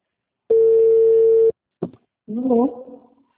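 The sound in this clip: A telephone ringing on a call: one steady buzzing ring tone about a second long, followed by a short spoken answer.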